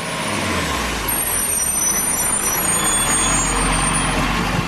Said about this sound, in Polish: Zanim kurort zostanie otwarty, na miejscu pojawią się ciężarówki.